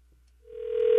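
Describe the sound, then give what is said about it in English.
A telephone ringing tone after a call is dialed, a single steady mid-pitched electronic tone that begins after a moment of near silence and swells louder. “I've dialed. Let's see if we get a ring.”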